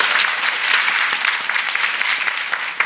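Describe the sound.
Audience applause welcoming a guest, a TV director, onto a panel: loud, sustained clapping from many hands with crisp individual claps standing out, steady from start to finish.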